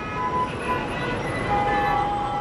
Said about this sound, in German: Unaufhörlich schieben sich die Autos durch Kairo.